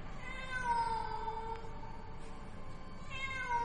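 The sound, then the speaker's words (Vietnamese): A cat meows eerily in a few long, wavering, drawn-out cries over a steady low background rumble, with no talking. “Đột nhiên, quanh đây văng vẳng, tiếng mèo vang lên. Tiếng mèo kêu nghe đến rợn cả người.”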